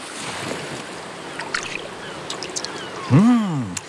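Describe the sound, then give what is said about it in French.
Little watery footsteps of a starfish in a children's story, a soft sloshing of water dotted with small splashy taps, then a brief swooping tonal sound near the end that is louder than the rest. “J'entends comme des petits pas dans l'eau. Mais si, c'est l'étoile de mer.”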